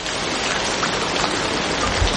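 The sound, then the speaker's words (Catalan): Steady rainfall, a dense, continuous patter of drops with no pauses, fairly loud and heard alone without voices. “i aleshores la pluja, deixeu-me que sigui una mica protagonista durant uns segons.”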